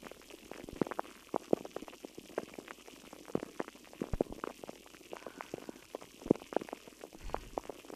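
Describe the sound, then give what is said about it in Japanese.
Crackling fizz of a carbonated drink imitating meat sizzling on a hot iron griddle: many irregular sharp pops and bubbling crackles over a faint hiss, quiet throughout. “鉄板の音どうですか。焼肉のような音に聞こえますか。”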